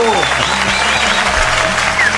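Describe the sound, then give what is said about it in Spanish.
An audience applauds with a dense, steady clatter of many hands that runs throughout, while voices call out over the clapping. “El aplauso.”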